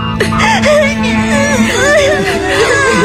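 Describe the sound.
Children cry and whimper in wavering, high-pitched wails, loud and continuous, with several sobbing voices overlapping throughout.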